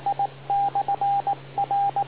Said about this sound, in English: Wait for the beep.